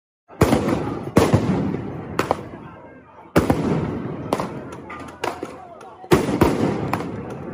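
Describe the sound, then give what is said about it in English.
Flashbang grenades exploding in a street during a protest as tear gas spreads: a series of sharp, loud bangs at irregular intervals, each trailing off into a noisy, rumbling tail. “Those are flashbang grenades and tear gas filling the streets.”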